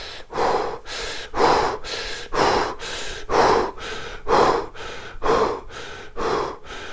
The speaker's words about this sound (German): so tantrischer Atem. Das geht so, dass ihr die Zungenspitze nach oben legt, an den Gaumen beim Einatmen und beim Ausatmen frei.